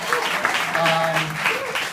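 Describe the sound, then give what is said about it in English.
Audience applause at a seminar-style event fills the full two seconds as a dense, steady wash of many hands clapping, with a few faint voices mixed into the crowd noise. “A little clap for that.”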